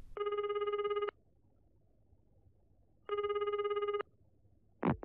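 A telephone bell in an apartment rings in two long trilling bursts of about a second each, separated by a pause of silence, loud and clear.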